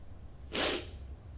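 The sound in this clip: A single short sneeze during a Bible reading, a sharp breathy burst lasting a fraction of a second against faint background hiss.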